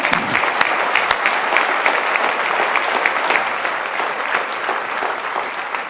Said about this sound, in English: So we want to congratulate them. Let's give them a hand.